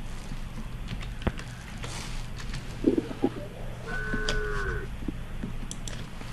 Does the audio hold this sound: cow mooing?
yes

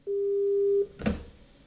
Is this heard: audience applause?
no

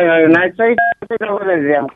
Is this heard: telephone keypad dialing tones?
yes

